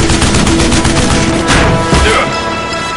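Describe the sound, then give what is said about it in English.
Machine-gun fire, with bullets tearing into the shingled wall of a frame house: a dense, loud rattle of rapid shots and cracking impacts that runs without pause. “saw the stream of bullets tear into the shingled wall of the frame house”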